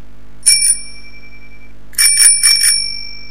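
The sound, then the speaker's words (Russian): A bell rings suddenly: first a quick bright double ring, then a pause, then a longer burst of several rapid metallic rings whose tone lingers and fades. “Внезапный звонок заставил ее умолкнуть. Дети разом оправились и подтянулись, услышав этот звонок.”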